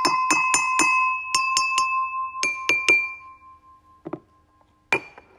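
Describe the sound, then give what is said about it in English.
Cups holding the same amount of water being struck, giving bright, ringing glassy chimes. Quick groups of strikes with lingering tones, then a few softer, scattered taps near the end. “It's the same amount. Even different cups make different tunes.”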